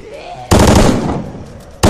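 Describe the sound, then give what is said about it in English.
Burst-fire gunshots from a video game weapon: a sudden loud burst of rapid shots that decays over about a second, then a second burst starts abruptly just after. “Oh, it's got burst fire.”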